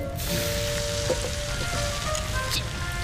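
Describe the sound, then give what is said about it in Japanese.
Bacon frying in a pan gives off a steady, dense sizzle, a continuous crackle with no pauses and no voices. “ベーコンなんか焦げちまえ。”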